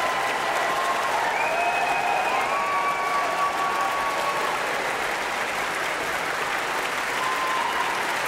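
Concert audience applauds after a second violin encore, a Bach solo partita movement, in Philadelphia. The clapping is loud, dense and sustained, holding an even level for the whole stretch.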